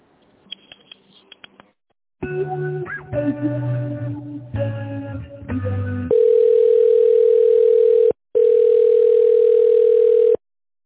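A telephone line plays while a business call is transferred to a tender specialist: faint clicks, then a few seconds of changing electronic tones, then two long, loud, steady beeps separated by a brief gap.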